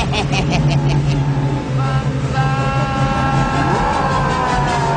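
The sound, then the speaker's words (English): A car engine rated at 200 horsepower strains in reverse, giving a steady, loud drone under a talking voice. “He's pulling against me. 200 horsepower. I put it in reverse.”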